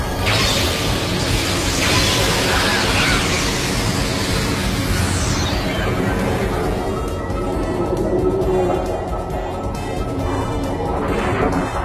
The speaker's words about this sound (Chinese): 吉里赞可以吃任何东西，而且恢复能力特别强。而一开场呢，也就是在去找食物的路上，吞掉了胜利队的导弹，吞掉了奥特曼的腿，吞掉了奥特曼的脑袋，吞掉了天然气的储气罐，然后就炸了。